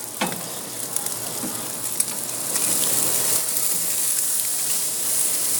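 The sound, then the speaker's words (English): Steak sizzling as it fries in a pan: a steady, bright hiss with dense crackling that stays fairly even and grows a little louder partway through, with no voices. “Go ahead and flip the steak.”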